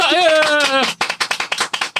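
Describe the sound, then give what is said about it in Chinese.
Applause from a small live audience: a burst of many quick, rhythmic claps follows a drawn-out voice, with the claps evenly spaced and moderately loud. “现场其实有别人，我们给点掌声好吗？”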